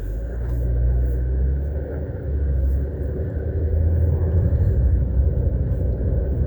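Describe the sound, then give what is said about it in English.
Steady low rumble of road traffic with buses passing, a continuous heavy engine drone with no clear breaks, slightly swelling and easing throughout. “we got some crazy traffic going on by these bus drivers. Crazy.”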